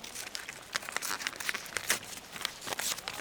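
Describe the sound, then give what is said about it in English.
Paper crinkles and tears as an envelope closed with a wax seal is opened, a fairly faint stream of many quick crackles and rustles with no talk. “Lestrade, who, after spying the emblem, opened the envelope with trembling hands”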